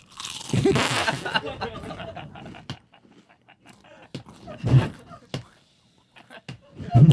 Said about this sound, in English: How tough can a guy be eating chips?